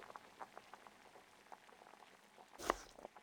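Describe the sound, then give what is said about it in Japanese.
Soup with browned mushrooms boils in a pot, faint soft bubbling pops at an irregular pace, with one louder gurgling burst near the end. “スープが煮えすぎてしまうところでした。”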